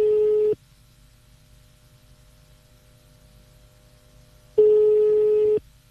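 A telephone rings out as a radio station calls a prize winner and waits for an answer: two identical half-second ringback tones, steady and mid-pitched, separated by about four seconds of near silence.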